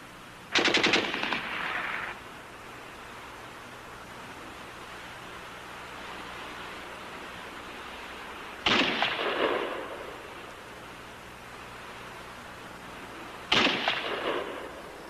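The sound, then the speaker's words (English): Sporadic sniper gunfire on a quiet Battle of Kursk front line sounds as three separate sharp bursts spaced several seconds apart. Each burst rings briefly, then fades back into a steady low background hiss. “Some casual shooting disturbing the quiet. A few snipers dueling to relieve the tension.”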